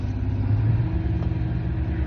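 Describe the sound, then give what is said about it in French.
A vehicle engine pushed to full throttle in third gear during an expedition raid: a loud, steady low rumble and drone that holds evenly, with no voices. “Donc là, on fout à fond les gaz. Troisième.”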